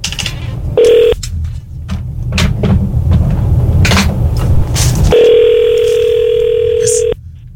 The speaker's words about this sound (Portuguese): Vamos ver se ele atende de novo. Pera aí. Vamos ligar pra ele de novo